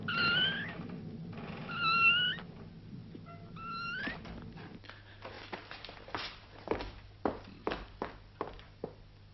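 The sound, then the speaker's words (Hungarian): Footsteps from someone walking around outside, below, land as a series of soft taps and thuds in the second half. A cat meows a few times beforehand, and everything stays faint. “Valaki járkál kint. Oda lent.”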